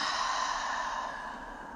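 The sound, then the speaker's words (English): One long, airy breath during a guided meditation breathing exercise, soft and even with a gentle hiss, fading slightly as it ends. “So let's breathe in and out. Breathe in and out.”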